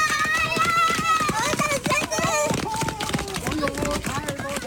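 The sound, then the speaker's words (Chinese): Running footsteps of about a dozen children rushing down a hillside beside a mountain road toward a car that has just stopped. Loud, excited children's voices shout and call out throughout, over busy, uneven footfalls. “车子刚刚停稳，十来个身影就从山坡上冲了下来。”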